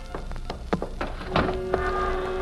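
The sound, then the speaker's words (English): Footsteps of a man creeping up a metal fire escape come as a few irregular, muffled thunks and taps. A thin, steady tone runs beneath the later steps. “Then I heard it. It sounded like a man sneaking up a fire escape.”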